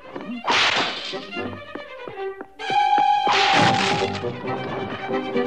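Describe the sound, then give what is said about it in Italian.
A broom swung at mice on a floor: a few sharp thwacks and thuds over a busy, tonal musical score. “Snoops cercò di colpirli con una scopa”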